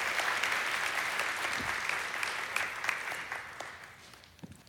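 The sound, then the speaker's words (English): Audience applause for a woman called up to the stage, a steady patter of clapping that gradually thins and fades toward the end. “Y'all give her a hand.”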